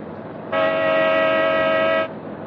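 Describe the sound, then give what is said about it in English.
A car horn blares once during a high-speed car chase, a steady, bright tone held for about a second and a half over continuous engine and road rumble. “Give him the horn again.”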